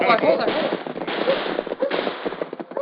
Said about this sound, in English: Golly, what's all the shooting for?